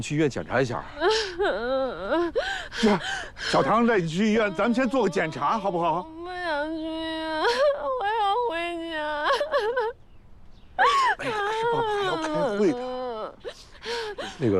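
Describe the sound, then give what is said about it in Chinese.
Wavering, wailing sobs and whimpers from a girl crying after falling down, with gasping breaths between cries and an adult talking soothingly over them. “乖，不哭啊，不哭。”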